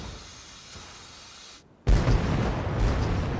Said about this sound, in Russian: В бинокль видно, как взрывается немецкий бронепоезд.